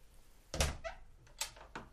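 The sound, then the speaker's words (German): Knuckles rap on a hotel room door in Munich: a few dull, separate knocks, unevenly spaced and fairly faint. “Ich bin hingeeilt und habe an ihre Tür geklopft.”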